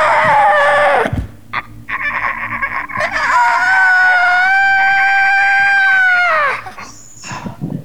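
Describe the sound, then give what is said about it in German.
A bird squawks harshly as it is being killed: a few rough cries first, then one long, loud, strained screech that holds for several seconds before it breaks off, with scattered noises after. “Und dann bringt sie diesen scheiß Vogel um.”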